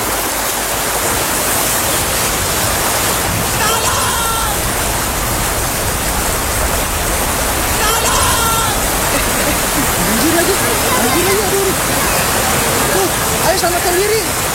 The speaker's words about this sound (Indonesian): Aduh guys, hujan lagi gimana dong? Iya hujan ya.